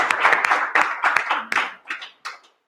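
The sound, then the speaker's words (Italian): A crowd applauds an athlete with a round of clapping that gradually thins out, ending in a few scattered, separate claps. “Quindi un applauso per Gino Bacci.”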